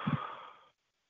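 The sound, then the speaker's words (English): A deep cleansing breath, heard mainly as a soft, airy sigh of exhaling that fades out within a second into silence, quiet and alone. “Let us now take 3 deep cleansing breaths. Number 1, I breathe in and I breathe out.”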